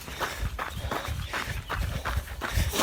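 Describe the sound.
Footsteps of people walking, a fairly faint, steady series of regular steps with an even rhythm and no talk over them.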